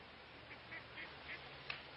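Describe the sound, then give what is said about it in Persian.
Faint duck quacks rise from a pond full of ducks, a few soft calls spaced irregularly over a steady background hiss, with one slightly sharper call near the end. “این طرف دست چپ یه برکه آب پر از مرغابی”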